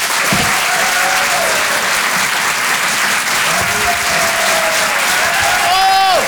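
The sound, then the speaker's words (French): Audience applause at the Rire et Chanson Comedy Club in France welcomes a comedian to the stage. The dense, steady clapping carries a few shouts and whoops throughout and swells slightly near the end. “Le Rire et Chanson Comedy Club. Découvrez vos futurs stars du rire. Faites un maximum de bruit, s'il vous plaît, pour Monsieur Yann Guillaume.”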